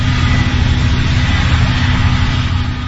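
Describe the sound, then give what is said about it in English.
Loud, steady, droning roar of compressors pressurizing natural gas wells among piñon pines on high mesas, a continuous deep hum with a broad hiss above it, unbroken and alone with no talk. “Tucked in among the trees are thousands of natural gas wells, about a third of them pressurized by ear-splitting compressors.”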